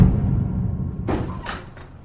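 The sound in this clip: A punch lands on a man as he is knocked out, giving a dull, heavy thud followed by a few sharper knocks, with no voices.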